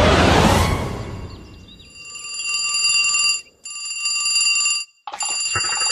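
A telephone bell rings after a loud opening burst of noise. It sounds as three stretches of bright, metallic ringing with steady tones, split by brief silent gaps.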